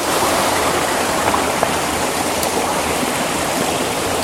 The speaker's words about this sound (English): I'm just going to give up and try and make my way back down this river without falling in.